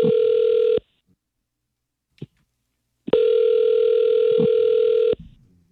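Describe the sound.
Ringback tone of an outgoing telephone call, two long steady buzzing rings separated by a pause of a couple of seconds, loud and clear with almost no talk.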